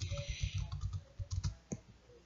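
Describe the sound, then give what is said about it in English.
Typing on a computer keyboard to enter a name by hand, heard as many quick, faint key clicks in an uneven rhythm with brief pauses between bursts. “so it wouldn't let me copy and paste for some reason. So I'm gonna type it in”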